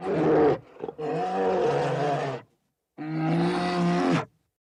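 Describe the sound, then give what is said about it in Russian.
A polar bear roars in loud, deep, rumbling bursts rich in harmonics, with a short break in the first roar and a pause before another long roar; no voices. “белый медведь.”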